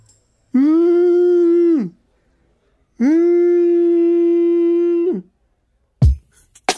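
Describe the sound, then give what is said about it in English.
A voice imitates a whale call with two long, sustained moaning tones, the second longer than the first, each sliding down at its end. A brief abrupt noise follows. “Because, you know, that was my whale sound.”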